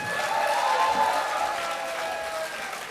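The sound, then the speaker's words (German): An audience at a live stage event applauds, a dense, steady wash of many hands clapping together. It stays loud and even throughout, easing only slightly toward the end. “Ein Applaus für den Daniel. Ein Applaus für den Michael.”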